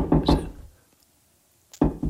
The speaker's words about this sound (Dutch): Waar komt dat kloppen vandaan? Komt dat hier komt dat van de grond?